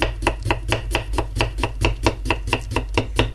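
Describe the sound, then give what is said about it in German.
Knife chopping as potatoes are sliced thinly by hand for a layered potato dish. Many rapid, evenly spaced strikes land on a board in a steady, brisk rhythm throughout, with no talking. “Auch wieder schön dünn schneiden. Ihr hört's, ich mach's mit der Hand.”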